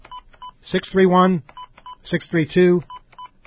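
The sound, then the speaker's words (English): Telephone keypad tones beep while a phone number is dialed, a run of many short, evenly spaced electronic pips, interrupted twice by a person talking over them. “look what happens when you try to call you guys at your new phone number. I'm going to demonstrate this right now. If you call”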